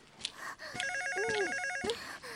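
A telephone rings with one burst of bright, trilling electronic tone lasting about a second, fairly quiet and heard alone.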